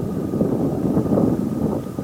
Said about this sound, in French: On arrive au base camp. On y arrive. Quelques tentes sont déjà montées. Il y a énormément de vent.